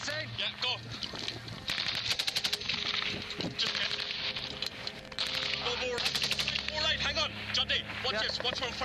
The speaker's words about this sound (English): The British Army are involved in a gun battle with the Taliban.